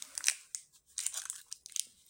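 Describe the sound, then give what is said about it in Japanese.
Crinkly rustling and crunching as an organic gel product's package is opened, with a few sharp bursts of crackling between short pauses. No one speaks. “じゃあこれをちょっと開封していきます。”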